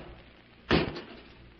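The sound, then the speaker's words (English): A cage door swings open with one loud, brief clunk that rises out of a quiet background and fades within a fraction of a second. “I'll open the cage”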